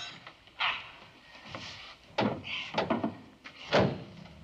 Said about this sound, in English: Step inside. The hinged wall is closed and padlocked by a member of the audience.